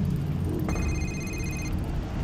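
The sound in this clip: A phone rings with an incoming call: one steady electronic ringtone lasting about a second over a constant low rumbling background.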